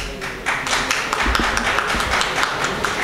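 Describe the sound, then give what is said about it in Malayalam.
Applause from an audience at a public debate, a loose scattering of individual claps and taps, uneven and fairly sparse rather than a full roar. “ഈ കയ്യടി ഇവിടം കൊണ്ട് നിൽക്കണം, പിന്നീട് കയ്യടിക്കരുത്.”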